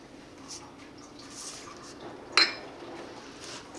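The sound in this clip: Dry baking ingredients and baking powder are mixed in a bowl with a utensil, which makes faint, soft scraping and one sharp clink of metal against the bowl midway through a quiet stretch.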